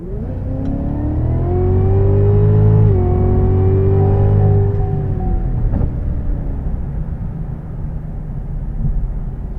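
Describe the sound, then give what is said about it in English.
A supercharged 6.2-litre V8 in a Cadillac CTS-V revving: a loud, deep, rumbling engine note that climbs in pitch, holds briefly, then falls back and settles into a steady low idle. “It's a V8, of course it is, it's 6.2 litres, it's supercharged for 650 horsepower and 640 foot pounds of torque, and it's absolutely addictive.”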